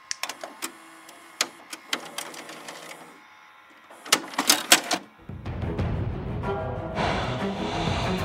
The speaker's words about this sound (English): Let's pop in the tape.